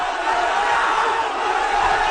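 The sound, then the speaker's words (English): Thousands of mostly young protesters marching on Parliament in India shout together, a dense, roaring crowd noise that holds steadily at a loud level with no pauses. “Police in India have attacked a crowd of thousands of protesters trying to march on Parliament.”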